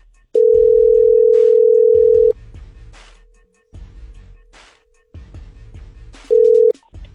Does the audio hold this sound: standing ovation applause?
no